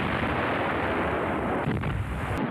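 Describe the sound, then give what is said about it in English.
Intense World War II anti-aircraft flak barrage fired against B-17 bombers: a heavy, unbroken roar of booming bursts throughout. “7 of the bombers were shot down, and 217 sustained damage from the intense flak barrage.”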